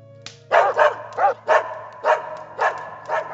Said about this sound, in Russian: как вдруг обе собаки разом поднялись, с судорожным лаем ринулись прочь от огня и исчезли во мраке.